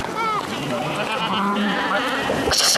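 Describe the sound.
Sheep bleat loudly while being herded, their wavering cries overlapping and running without pause, with a harsher burst right at the end.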